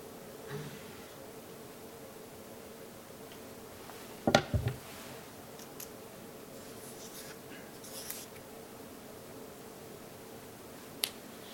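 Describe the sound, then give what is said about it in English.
A marker draws a diagram of a military position: faint strokes and scratches on a quiet background, with a short burst of sharp taps midway and a lone click near the end. “I'm just going to draw a little diagram here.”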